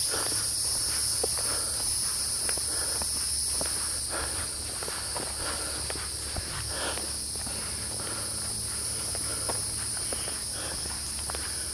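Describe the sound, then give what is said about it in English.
Footsteps of a person walking outdoors, many steady, soft steps in an even rhythm over constant high insect and cricket chirring, with no talk. “So I'm just walking right now.”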